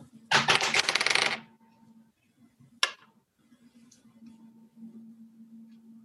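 Dice roll for strength athletics checks in a tabletop role-playing game: a rattling clatter lasting about a second, then a single sharp click, followed by near quiet.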